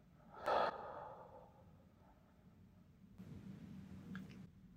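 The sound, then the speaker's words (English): Deep breathing during a relaxation exercise: a short, sharper breath near the start, then quiet, then a longer soft airy hiss, all faint and with no voices. “And we'll start with a deep breath in and out.”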